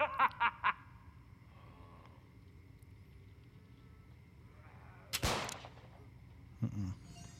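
Micro SMG fire in a zombie video game: a few quick sharp bursts at the start, a long quiet stretch, then a loud blast and one more brief report near the end.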